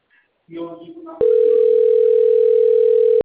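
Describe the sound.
A steady telephone dial tone sounds while calling. A voice speaks briefly first, then the loud, unbroken single-pitch tone holds for about two seconds and cuts off abruptly.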